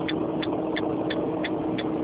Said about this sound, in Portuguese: Eu não escutei por causa do barulho que o senhor está dirigindo, eu acho.